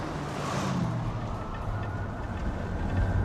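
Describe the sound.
A car exits a freeway and drives through an urban area, with a steady low engine and road rumble throughout and no talk.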